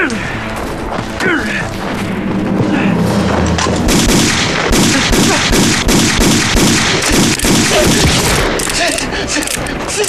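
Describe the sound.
Sustained gunfire in a wartime scene, a dense burst of many rapid, loud shots that runs for several seconds, with voices mixed in around it.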